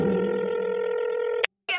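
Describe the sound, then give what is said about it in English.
Telephone tones as a number is dialed: a long, steady electronic tone with a bright harmonic edge holds for about a second and a half, breaks off into brief silence, then another tone starts. “Dialing the number. Boop, boop, boop, boop, boop, boop, boop.”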